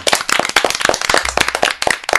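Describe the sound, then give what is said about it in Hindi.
A studio audience claps in quick, uneven bursts of sharp, loud hand claps that come in clusters with brief gaps between them. “जोरदार तालियां सबके लिए।”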